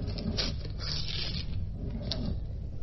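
Envelopes of letters being torn open and handled: a few crisp paper rips and rustles over a steady low hum, with no speech.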